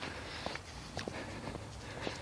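Footsteps of a person on a long walk. Soft, regularly spaced steps repeat steadily throughout against a faint, constant background hiss.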